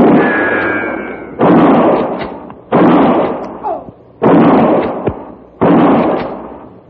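Rifle gunshots in a Western gunfight: four sharp, loud blasts at roughly even intervals, each with a sudden onset and a long, ringing decay that trails off before the next shot.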